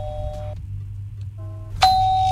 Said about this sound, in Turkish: Kapı çalıyor diyor. Benden gelmedi o ses.